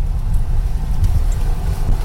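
A Toyota pickup truck driving, heard as a steady, low engine and road rumble that stays even and fairly loud for the whole stretch, with no voices.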